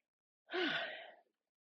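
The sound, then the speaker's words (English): A single deep breath, in through the nose and out through the mouth, heard alone as one soft, airy sigh lasting under a second with a faint voiced edge, framed by silence. “And maybe take a big inhale through the nose and exhale out of the mouth.”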